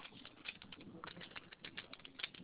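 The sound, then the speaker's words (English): Typing on a computer keyboard gives many quick, faint clicks in an uneven, rapid patter. “Type this on the chat for you too.”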